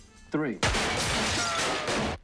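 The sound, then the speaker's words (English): Gunfire in a film scene: a short shouted voice, then a dense, loud burst of shots that runs for well over a second before cutting off. “Jesus Christ, they're shooting men!”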